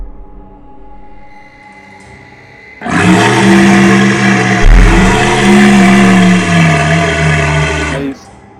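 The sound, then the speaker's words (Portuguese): A large beast roaring in a tabletop role-playing game session: after a faint low hum, a loud sustained growling roar with a deep rumbling undertone runs for about five seconds, then stops sharply. “Vocês sentem uma leve vibração no chão. Vocês escutam um rugido.”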